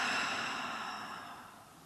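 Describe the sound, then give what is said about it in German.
A deep breath exhaled slowly through the open mouth during a guided relaxation exercise, heard as one soft, airy rush that gradually fades, alone and without talk. “Und noch ein drittes Mal tief über die Nase einatmen und über den geöffneten Mund wieder ausatmen.”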